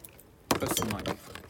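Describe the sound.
A bottle of Melba's Fixins carrot cake soda is cracked open with a sudden burst of hiss and glassy clinking that lasts about half a second, then fades.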